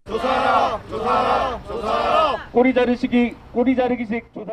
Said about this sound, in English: The sound of protesters outside the courtroom in Seoul.